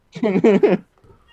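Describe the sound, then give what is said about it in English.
A cat gives a loud, drawn-out yowling meow that is strikingly voice-like. It wavers through a few pulses in under a second and is followed by a brief faint rustle. “what is that? That's my cat. Oh, that's a cat. I thought it was someone screaming in the back.”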